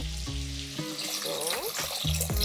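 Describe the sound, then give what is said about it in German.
Broth poured into a cooking pot of one-pot pasta sauce with capers, olives and chili, a steady watery splashing and gurgle with a brief voice at the start and end. “Ich habe jetzt hier noch ein paar Kapern, ein paar Oliven und ich mache auch noch ein bisschen Chili mit rein. Da kommt jetzt einfach nur Brühe drauf.”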